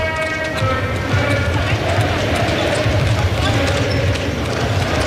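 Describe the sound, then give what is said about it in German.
A basketball bounces steadily on the hard floor of an indoor arena, mixed with a dense bed of hall noise and people talking throughout. “Basketball unplugged, möchte man sagen. Aber man hört auch noch diese Hallengeräusche, ne? Ja, so Gequietsche.”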